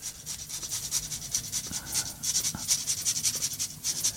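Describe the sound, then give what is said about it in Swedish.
Autumn truffle grated by hand over scrambled eggs gives a quick, steady run of many soft rasping strokes, alone with no talk over it. “nu river jag på rätt rejält här. Mm. Och jag skivar inte utan jag river för att jag vill ha fram maximalt med smak av den här hösttyfen.”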